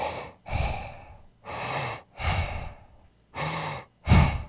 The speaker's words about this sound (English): stands there awkwardly, and breathes heavily through his mouth